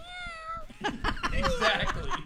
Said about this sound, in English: That's right, and you meow too. You agree, see? A cat will always agree.